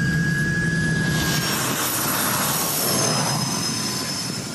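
A running aircraft turbine engine at a turbine temperature of 800 degrees, a loud, steady roar with thin high-pitched whining tones held above it throughout.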